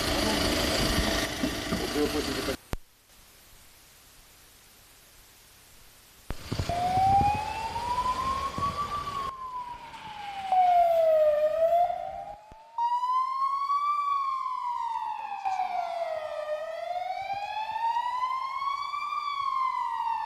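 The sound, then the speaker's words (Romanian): Ambulance siren as the crew leaves for a call, a loud tone slowly rising and falling in repeated cycles, later joined by a higher-pitched wail, over a low engine rumble. “După câteva minute de liniște, alarma a sunat din nou, iar Bogdan și colegii săi au plecat către o altă persoană care avea nevoie de ajutor.”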